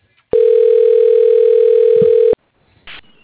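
Telephone dialing tone: a loud, steady, unbroken electronic hum of one pitch lasting about two seconds, cut off sharply, then a short quieter burst after it.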